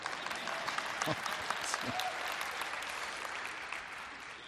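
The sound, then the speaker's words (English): Audience applause breaks out, a steady crowd of hands clapping throughout, with a few brief voice sounds over it early on before the clapping carries on evenly. “I didn't even have to prompt that, right? But I think it only takes one person to start clapping and everybody else. Oh, I guess I better clap.”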